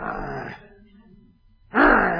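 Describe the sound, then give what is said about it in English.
A voice imitates an angry growl with gnashing teeth: a rough, guttural snarl about half a second long, a quieter low rumbling stretch, then a second loud, harsh snarl. “Growling at them.”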